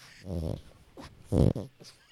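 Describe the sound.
A dog snorts right into a microphone, giving a few short, breathy grunting bursts with the loudest near the middle and fainter ones around it, and no talk.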